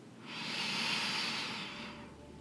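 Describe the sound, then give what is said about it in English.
A single deep inhalation during a breathing exercise, a soft, steady, breathy hiss that swells gently and then fades, heard alone. “Palms out to the side, deep breath in.”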